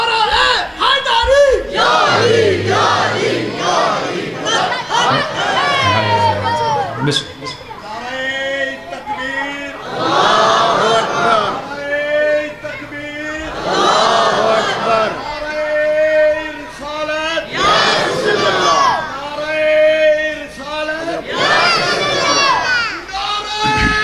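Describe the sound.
A large crowd chants a slogan in unison, shouting in many loud, rhythmic bursts separated by brief lulls, the massed voices rising and falling together.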